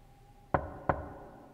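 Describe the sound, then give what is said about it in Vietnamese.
Two sharp knocks on a door, evenly spaced and loud over a faint steady hum, with silence settling after the second rap. “Anh nheo mắt nhìn về hướng cánh cửa, tiếng gõ cửa vẫn cứ vang lên, ngắt quãng.”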